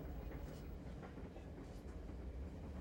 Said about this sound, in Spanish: Damas y caballeros, el tren 623. El expreso de Napa ha llegado